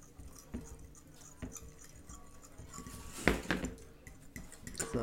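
A mixture being stirred after milk and egg are added: quiet scraping and a few light clinks of a utensil against a dish, growing slightly louder toward the end.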